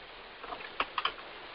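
A few quick, faint keystrokes as a word is typed on a computer keyboard, with light clicks leading into three sharper taps close together.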